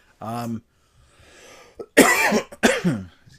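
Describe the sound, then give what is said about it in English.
A person with a persistent, bothersome cough gives a few heavy, raspy coughs in quick succession, each with a voiced tail. A brief voiced sound and faint breathing come just before them. “All I want for Thanksgiving is to not have this cough bother me anymore.”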